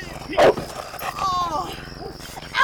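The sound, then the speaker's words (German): A dog barks during a tense street encounter, giving two loud, harsh barks, one near the start and one at the end, with people talking in between. “Mann, nehmen Sie jetzt scheiß Köter hier weg!”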